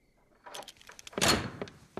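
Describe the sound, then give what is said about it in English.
Someone tries the handle of a locked door: a few faint clicks and rattles, then a louder thunk and rattle of the handle midway, followed by a couple of softer clicks. “Annalise tries the locked door, then rests her head against it. Locked in again.”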